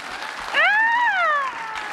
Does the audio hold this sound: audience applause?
yes